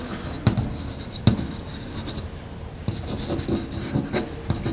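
A pen scratches and rubs across paper as someone writes out notes by hand during a lesson on capacitors, with a few sharper taps among the steady scraping strokes.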